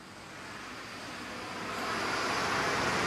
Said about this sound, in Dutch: We moeten een beetje opletten dat er rijden hier ook auto's overheen.